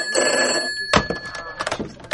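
A telephone rings with an incoming call: a steady, high electronic ring holds for just under a second, then gives way to a few short, louder bursts of sound.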